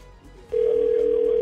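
Telephone ringback tone on an outgoing call: a steady, single-pitch tone switches on about half a second in and holds evenly to the end, over faint background noise.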